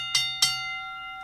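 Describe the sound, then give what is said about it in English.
Two strikes of a bell, rung in place of a gavel to open a court session, sound in quick succession. Each is bright and metallic, and the steady ringing tone fades slowly after the second strike. “I know I have a gavel, but I just thought the bell sounded better.”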